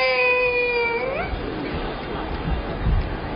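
A baby cries in one sustained, high, tonal wail that bends upward at its end, then fades into quieter, noisy fussing.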